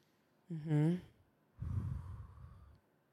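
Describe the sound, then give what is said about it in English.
A deep breath during a calming breathing exercise done with a child: a short voiced sigh, then after a pause a long, steady, breathy exhale. “Can we just pause and breathe? That's so good. You know, and we hold hands. We look each other in the eyes. And I go, 1, 2, 3.”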